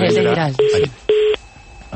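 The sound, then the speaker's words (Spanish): Telephone line beeps after a dropped call: two short, steady tones follow a brief voice, then faint line noise remains. “¿Se fue, general? Se cayó la llamada.”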